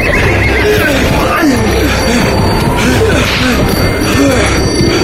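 A horse neighs and whinnies repeatedly while pulling a sleigh through snow in a gale-force wind, the cries rising and falling through loud, constant storm noise.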